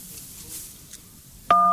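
Pressing key 1 on a telephone keypad gives a single steady two-note beep that starts abruptly after a quiet stretch of faint line hiss and holds to the end.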